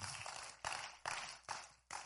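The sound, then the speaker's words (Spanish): Rhythmic audience clapping in a church, broad crisp bursts repeating steadily about every half second, each striking sharply and then tailing off before the next. “Un aplauso, qué bueno.”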